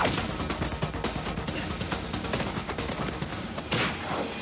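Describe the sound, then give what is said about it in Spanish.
Kicks and punches in a fight scene from a 2000 action spy film: heavy smacking and thudding impacts within a dense, loud wall of action sound, with one sharper crash near the end. “Le asesta una patada y un puñetazo.”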